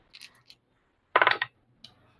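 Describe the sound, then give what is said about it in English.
Dice roll across a table during a tabletop role-playing game, making a few short, sharp clicking rattles. The loudest cluster comes mid-clip, with fainter taps just before and after, and the dice sound alone without talk. “I'm going to pick up the right dice one day. You know, it's really hard to roll dice with my left hand.”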